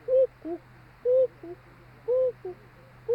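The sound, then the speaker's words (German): Cuckoo calls like a Black Forest cuckoo clock, in three clear two-note calls and the start of a fourth. Each call is a higher note followed by a lower, softer one, repeating about once a second over a faint steady hum. “mit der Stimme einer Schwarzwälder Kuckucksuhr. Das sind so ihre Schwänke. Sie ruft 7-mal Kuckuck”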